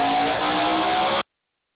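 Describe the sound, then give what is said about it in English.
Race cars racing in a shootout, heard from the bleachers: a continuous loud engine roar with a sustained whining tone that holds steady and then cuts off abruptly. “We can listen to the racing.”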